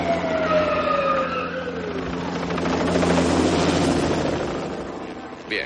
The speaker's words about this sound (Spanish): Poco después, un helicóptero de la policía llega al zoológico, donde numerosos coches con las sirenas encendidas esperan en la puerta.